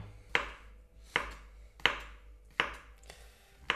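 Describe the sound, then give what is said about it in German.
A knife cuts button mushrooms on a cutting board, halving them and then slicing thin pieces across for pretzel dumplings with bacon. Crisp, distinct chops land in a slow, steady rhythm, each a sharp tap with a short fading tail. “Champignons zu schneiden. Also einfach halbieren und dann quer dazu dünne Scheiben runterschneiden.”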